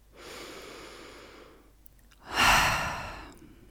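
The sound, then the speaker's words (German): A single deep breath during a relaxation exercise: a long, soft, airy inhale, a short pause, then a louder, fuller breathy exhale with no talk. “Und jetzt atme mal tief durch.”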